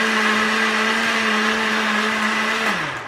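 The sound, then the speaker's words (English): A blender runs loudly with a steady motor whine and a strong buzzing tone, then winds down with a falling pitch just before the end. “stands in front of a blender.”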